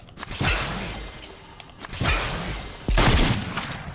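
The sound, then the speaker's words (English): Shotgun blasts from a video game: three loud, booming shots spaced about a second apart, each with a sharp crack and a rumbling tail. “shotgun works.”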